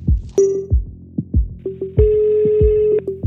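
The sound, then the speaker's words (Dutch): Ringback tone of an outgoing phone call to a number, sounding as steady mid-pitched beeps: short blips and then one long, louder tone near the end, over a rhythmic, thumping low beat. “We bellen het nummer en er wordt opgenomen.”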